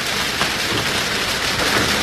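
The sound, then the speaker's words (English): Steady rain falling, a dense, even hiss that stays at the same loudness throughout with no breaks. “If this rain ever stops”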